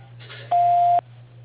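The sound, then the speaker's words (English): A voicemail beep sounds once, a single steady pure tone lasting about half a second, loud over a faint constant low hum. “Please leave a message at the tone.”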